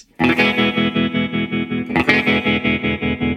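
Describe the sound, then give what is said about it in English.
Electric guitar, a Wire Instruments Concorde VI, through a tremolo pedal with its blade switch set to a Gretsch-style high-pass/low-pass mode. Two loud strummed chords ring out, each sustain pulsing in a fast, steady throb, heard alone. “we're using Matt Wright's new pedal, the Trammello. I've got the lower blade switch forward into that Gretsch kind of mode.”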